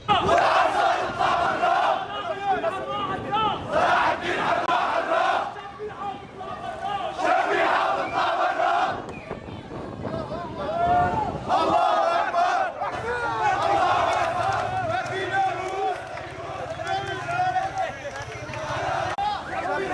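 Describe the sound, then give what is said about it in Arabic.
Protesters at an evening demonstration in Jisr al-Shughur, Idlib province, chant slogans demanding accountability for remnants of the former regime. Many voices repeat rhythmic phrases in a sustained crowd sound with a few brief lulls. “في جسر الشغور أيضا في ريف محافظة إدلب شهدت مظاهرة مسائية ردد خلالها المحتجون شعارات تطالب بمحاسبة فلول النظام”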